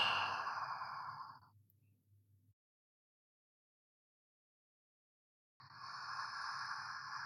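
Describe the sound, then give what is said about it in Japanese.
Slow breathing: a long, soft exhale tapers away, followed by a few seconds of silence and then the start of another unhurried breath. No voice is heard. “吸って吐いて。”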